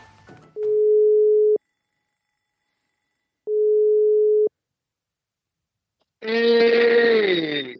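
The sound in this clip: Two long, steady telephone tones, each about a second, with a pause between them, sound while a call is placed, followed by a voice answering.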